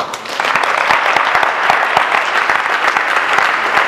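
A church audience applauding, with dense, steady clapping that fills the whole four seconds at an even, loud level.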